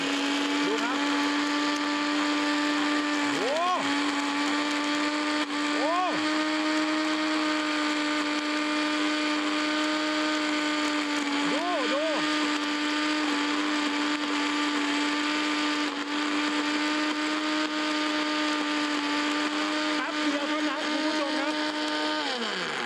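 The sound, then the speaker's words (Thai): Blender blades grind hard seashells into powder with a loud, steady high-pitched whine and drone, broken by a few brief dips and swoops in pitch as the motor strains against the shells. “อันนี้ใส่เปลือกหอยไปนะครับเดี๋ยวจะให้ดูว่าพลังความแรงของเขานะครับกับตัวใบมีดเป็นอย่างไร”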